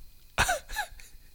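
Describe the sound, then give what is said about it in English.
Two short, forceful exhales of anger from a person, breathy bursts close together, the first louder than the second, with quiet background between them. “I just exhaled twice out of anger. It was not laughter.”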